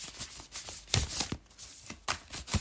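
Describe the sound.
Oracle cards are shuffled and drawn for a reading. Soft riffling, flicking and sliding sounds come in a quick, irregular run of faint taps, quiet and with no voices.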